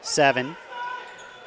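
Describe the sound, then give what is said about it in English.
A basketball dribbled on the court during a game: a short burst of bounce thuds over loud voices, then a steady crowd murmur. “Still dribbling.”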